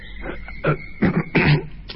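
A person clearing their throat: a few rough, breathy bursts in quick succession, moderately loud and heard alone without talk.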